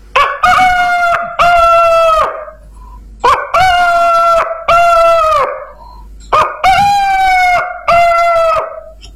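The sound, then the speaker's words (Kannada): A rooster crows in the morning, three loud, repeated calls with a regular rhythm. Each call is a short opening note followed by a long, harmonic, strained cry that trails off, with brief quiet gaps between the crows. “ಬೆಳಗ್ಗೆ ಏಳುವಾಗ ಒಂದು ಕೋಳಿ ಹುಂಜ ಈ ರೀತಿ ಕೂಗುತ್ತಿತ್ತು.”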